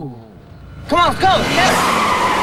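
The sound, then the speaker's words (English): Tires skid and squeal sharply as a BMW chased by a police car speeds through a crossroads and a pileup follows. A wavering screech gives way to a loud, sustained roar of noise. “The BMW flies through the crossroads directly in front of Belle. A police car in hot pursuit. A pileup ensues.”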